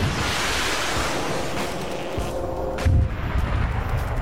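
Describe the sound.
Artillery fire during an infantry training exercise: a low, rumbling boom about three seconds in, heard within continuous wind-like noise.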